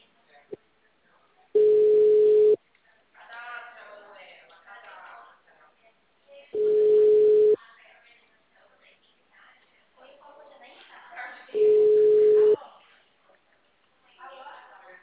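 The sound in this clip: A telephone ringback tone on an outgoing call: three steady, one-second mid-pitched tones at even intervals, with faint voices murmuring in the gaps between them.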